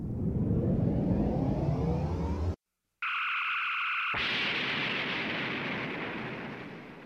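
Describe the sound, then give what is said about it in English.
A science-fiction spaceship's improbability drive powers up: a loud rumbling roar cuts off abruptly into brief silence. A steady electronic hum follows, then a broad hissing whoosh joins it and slowly fades. “Readying the improbability drive.”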